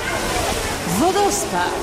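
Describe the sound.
Waterfall in the Congo valley hall of Wrocław Zoo, heard as a steady, continuous rushing noise beneath people talking.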